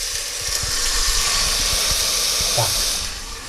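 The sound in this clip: Steady hissing and sizzling as game broth is poured into a hot pot holding plum butter and sliced gingerbread, a continuous bright wash lasting a few seconds with faint low bubbling beneath.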